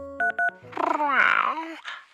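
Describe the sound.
Two short, steady touch-tone beeps sound as a telephone number is dialed. A gruff, warbling vocal grunt follows, louder and longer.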